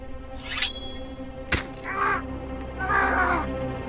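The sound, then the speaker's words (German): A bird calling: a few harsh, cawing cries separated by pauses, with a sharp click between them over a steady low background. “Da, hinter dir, ist ja der Vogel wieder. Verstehst du ihn nun?”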